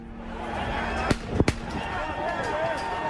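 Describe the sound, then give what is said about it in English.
Gunshots from a firearm fired into the sky by a young man who climbed scaffolding, heard in video footage as a few sharp cracks close together over a steady background rumble. “decides to scale the scaffolding, turns around, brandishes a firearm, aims the firearm into the sky, and fires off 2 rounds. Let's roll the tape.”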